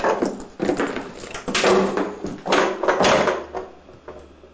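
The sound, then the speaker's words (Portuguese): A cardboard box being tidied and closed: rustling and scraping with several dull knocks and thumps of flaps and contents, fairly loud and continuous, with no speech. “Arruma e fecha a caixa.”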